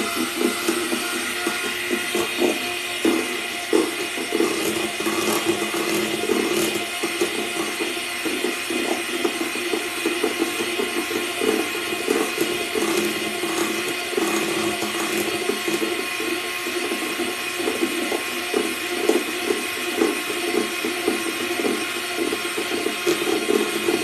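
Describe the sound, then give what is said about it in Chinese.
An electric whisk runs at low speed, whipping a thickening mixture. It makes a steady, busy mechanical whir with a rattling, clicking texture that continues throughout, with no talk. “这个时候我们就换成低速，最后把它打发到一个就是，当你提起来的时候，你的打蛋器上面的尖儿是有一点点塌的那种状态。”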